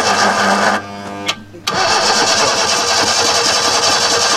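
An engine cranks and tries to start, a loud, rough mechanical churning that cuts out briefly and then resumes, running steadily to the end.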